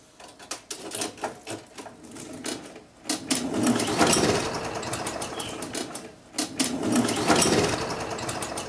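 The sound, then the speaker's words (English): A time machine runs after its dial is turned back, giving off a rapid rattling, chattering mechanical clatter. It starts in uneven bursts, swells into a sustained loud run, dips briefly, then resumes strongly. “I'll just turn this dial back 20 minutes or so”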